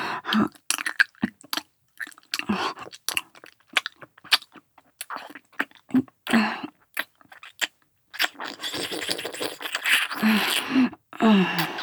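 Gentle ASMR nibbling and biting mouth sounds, many soft, wet clicks and small crunches in irregular bursts, growing into a denser, busier stretch near the end.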